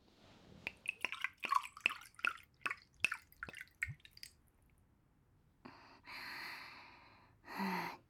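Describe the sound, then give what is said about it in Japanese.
A drink is poured into a glass: a quick run of bright, watery glugging drips, then after a pause a softer, steady rushing pour and one final short burst. “注いでくれるのか。ありがとう。”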